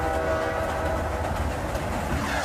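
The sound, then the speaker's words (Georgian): A train ride on a rail line near Kota Kinabalu, Borneo: the steady, loud rumble of the rolling train with a continuous low drone and no voices. “ოტაკინაბალუს ყველაზე ძვირადღირებული გასართობი მატარებით გასეირნება.”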